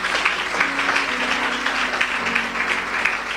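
Applause from a church audience acclaiming the Lord, a dense, steady wash of clapping that holds at an even level throughout.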